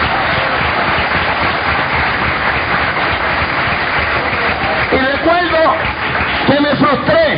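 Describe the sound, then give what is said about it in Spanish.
Applause from a church audience rises as an even, sustained patter of many hands, and then a voice begins speaking over it near the end. “Dale un aplauso a Cristo.”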